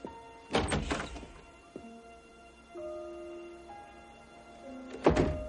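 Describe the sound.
Hotel room door as someone leaves in a 1995 thriller: a few dull, solid thunks and a sharp knock come early, then a final heavy thud near the end, with quiet, sustained musical tones underneath.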